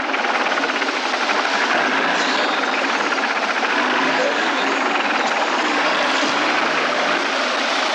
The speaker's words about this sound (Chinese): 好，开车， 准备开车。